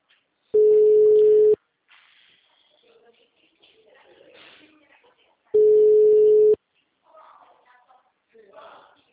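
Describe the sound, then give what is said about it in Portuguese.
Telephone ringback tone as an outgoing call waits to be answered: two long, steady, loud rings of about a second each, separated by a gap with faint low murmuring. “Queria fazer ligação com esse homem já. Se ele atende.”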